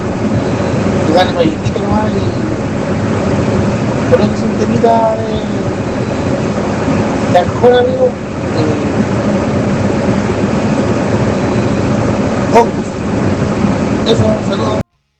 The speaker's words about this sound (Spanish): parece que iba manejando, ¿ah? Parece que iba en la pega. Se escuchaba ahí bastante ruido ambiente.